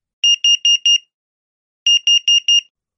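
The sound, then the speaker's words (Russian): A vending machine's malfunction alarm gives two groups of four rapid, high-pitched electronic beeps. The groups are loud and evenly spaced, with a second of silence between them. “Сигнал неисправности. Автомат отключился от сети.”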